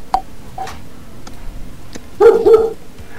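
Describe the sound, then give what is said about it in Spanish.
A dog barks a few times: two faint, short yips early on, then a pair of louder, sharper barks near the end. No other sounds are heard. “Es un perro.”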